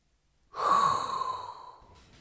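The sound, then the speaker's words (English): A single long, breathy exhale or sigh rises suddenly to full loudness, then tapers gradually over about a second and a half with a faint hiss underneath. “as there is only one thing left to do, and that is inhale a hot breath”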